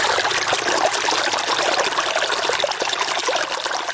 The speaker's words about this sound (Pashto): اوس مهال د خپل زمکی په خړوبولو بوخت دی